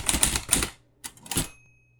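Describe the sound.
Typing on a restored old typewriter gives a crisp clatter of keystrokes in a few quick bursts, broken by a short pause. The sound is clear, with no voices.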